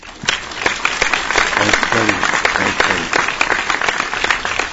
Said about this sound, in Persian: دخترها کف زد، دخترها واسه کف رسی زد.